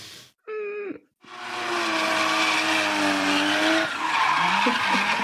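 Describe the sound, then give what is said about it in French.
Car tires squealing while drifting: a brief high screech, a short gap, then a long, loud, sustained squeal over a roaring engine, its pitch wavering near the end. “Ça drift Ça drift dure”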